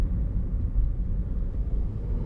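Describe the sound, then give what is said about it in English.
A car drives along the Princes Highway, giving a continuous low road rumble and engine drone with no voices. “A warning from the TomTom as I drive down the Princes Highway.”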